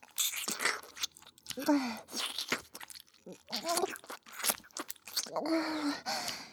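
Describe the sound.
Crunchy bread being bitten and chewed: many crisp, sharp crunches and scraping bites in irregular bursts, loud and close, with brief quiet gaps between chews.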